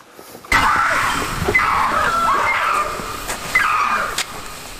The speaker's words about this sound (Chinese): 孙秋阳他们被急促的尖叫声吸引，试图寻找这个叫声的来源。